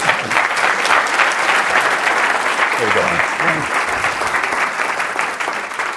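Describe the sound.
An audience applauds to welcome speaker Bill Gross at a talk, with loud, dense, sustained clapping that holds at an even level throughout.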